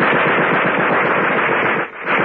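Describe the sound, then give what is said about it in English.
A sudden burst of machine gun fire: rapid, loud shots blur into a nearly continuous rattle that briefly dips just before the end, then resumes. “There was a sudden burst of machine gun fire.”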